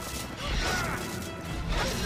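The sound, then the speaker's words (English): Sharp crashing and clashing as a sword, Excalibur, deflects a rapid series of energy blasts. The impacts run dense, loud and almost continuous over two seconds, mixed with swishing whooshes. “Mordred hits Allie with a series of energy blasts, each of which she deflects with Excalibur.”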